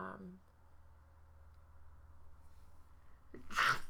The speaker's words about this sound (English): sorry, I had to sneeze there.